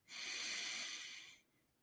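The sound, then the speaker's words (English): A single deep breath drawn in during a guided relaxation exercise: a steady, airy hiss of inhaling that holds for about a second and a quarter, then stops. “And go ahead and take a deep breath in”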